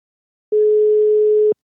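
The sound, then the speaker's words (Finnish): One even, mid-pitched telephone ringing tone sounds as a call is placed, a single sustained beep of about one second with nothing else around it. “Ja otetaan tuosta puhelu käyntiin.”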